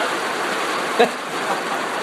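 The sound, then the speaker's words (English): Steady rain gives off an even, continuous hiss throughout, with one brief knock in the middle. “that's good rain, isn't it? That's good rain.”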